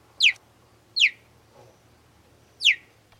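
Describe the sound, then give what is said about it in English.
Cheetah chirping: three sharp, high, bird-like chirps, each sliding quickly downward in pitch, spaced unevenly, with a fainter, lower call between the second and third. “No, that wasn't a bird chirping. That was actually a cheetah. Most people expect these cats to sound more like a lion or a tiger. But actually, the most common sound they make are these cute little chirps.”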